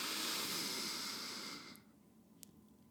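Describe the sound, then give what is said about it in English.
A deep inhale through the nose makes a faint, steady, breathy hiss for about a second and a half, then tapers off into near silence. “And then last time, we're going to inhale through the nose.”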